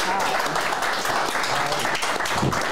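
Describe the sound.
Audience applause welcomes a guest onto a show, a dense, steady wash of clapping that holds at an even level for nearly three seconds with no clear break.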